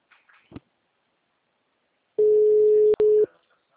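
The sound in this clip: An outgoing call's telephone ringing tone plays as one steady, mid-pitched tone of about a second, broken by a brief click, after a few faint short sounds at the start.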